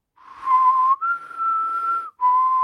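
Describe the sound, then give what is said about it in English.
A person whistles an imitation of a creature's high-pitched three-part call, low, then slightly higher, then low again, with three clear, steady, loud tones separated by brief gaps. “It has a high-pitched three-part whistle that goes low, high, low.”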